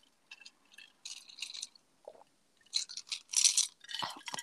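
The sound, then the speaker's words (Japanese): Ice rattles in a glass of whisky highball, giving a few faint, bright clinks and small rattling bursts, separated by short quiet gaps. “あんたもなんかカラカラ言ってますね。そう、ハイボールですね、僕は今日。”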